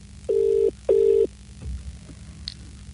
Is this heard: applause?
no